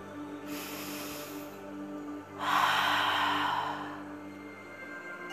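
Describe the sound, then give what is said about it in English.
A single deep breath during a guided meditation: a long, airy inhale, a brief pause, then a louder, fuller exhale that tapers away. A faint, steady tonal hum continues underneath. “And when you're ready, take a deep breath.”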